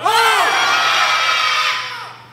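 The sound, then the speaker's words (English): An audience shouting together on cue, one loud, sustained collective yell that holds steady and then tapers off at the end. “I could, say 1, 2, 3, shout. Ready? 1, 2, 3, shout.”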